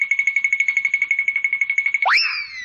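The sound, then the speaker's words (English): Fred's twinkle toes page-turn cue from a Flintstones read-along record: a rapid, fluttering high trill pulses steadily, then ends in a quick springy upward swoop. “Just be sure to turn the rocks when you hear Fred's twinkle toes sound like this.”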